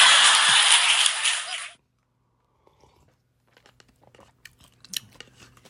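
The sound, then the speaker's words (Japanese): Chewing sounds of someone eating cup noodles: a loud burst of crunchy, rustling noise lasting under two seconds, then near quiet with faint, scattered small clicks. “だってカップヌードル食べてるだけだもん”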